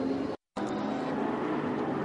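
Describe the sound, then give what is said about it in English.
Onboard race car engine hesitating on the throttle, a dense steady engine roar that cuts out completely for a split second, then picks up again at the same level. “You can just hear the hesitation in the throttle.”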